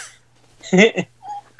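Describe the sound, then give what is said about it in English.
A dog whines beside the speaker: a brief, harmonic whimper lasting about a third of a second, then a thinner, fainter high-pitched whine trailing after it. “And there's a dog whining next to me.”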